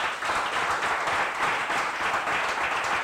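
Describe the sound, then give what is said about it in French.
An audience applauding during a church service, dense and steady clapping that fills the whole stretch without clear breaks, moderately loud and even in level. “Si tu es d'accord, il faut que tu acclames le Seigneur.”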